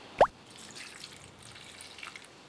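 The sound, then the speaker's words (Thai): A single small liquid drip or plop as a splash of pickled garlic juice or sesame oil goes into a dish. It is brief and clear, then followed by faint, steady background noise. “ใส่น้ำมันงา นิดหน่อยพอให้มีกลิ่นหอมๆค่ะน้ำกระเทียมดองเล็กน้อย”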